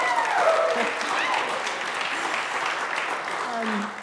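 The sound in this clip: A church audience applauds to welcome a guest onstage: steady, full clapping continues throughout, with a few faint voices underneath, before it begins to taper at the end.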